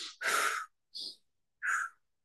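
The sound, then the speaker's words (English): Deep breathing during a guided breathing exercise, in through the nose and out through the mouth: three soft, airy breath sounds separated by short silences, the first the longest and strongest. “So you're going to inhale through the nose and exhale through the mouth.”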